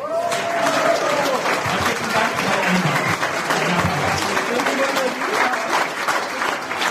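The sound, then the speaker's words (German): Audience applause fills all seven seconds as dense, continuous clapping at an even, loud level, with the wash of a crowd behind it and no break or fade. “Dein Applaus.”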